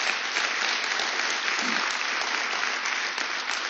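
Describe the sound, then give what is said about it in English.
Congregation applause after worship: dense, steady clapping from a crowd that holds at an even loudness for the whole stretch, with no voices standing out. “Did you enjoy the worship? Please give the Lord a big hand.”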